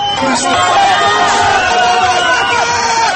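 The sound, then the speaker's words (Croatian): Spectators cheer loudly at a canoe-kayak race on the Vrbas river, with shrill shouts and calls from many voices over the steady rush of the river. “Od šuma rijeke povremeno su bili glasni navijači.”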